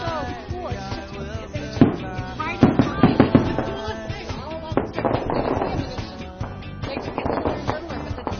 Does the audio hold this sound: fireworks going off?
yes